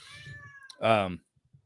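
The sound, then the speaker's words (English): A cat meowing indoors: one loud, clear meow of about half a second, rich in harmonics, standing out after a quieter stretch and followed by near silence. “I'm sorry about my cat. There's always a cat in here making noise.”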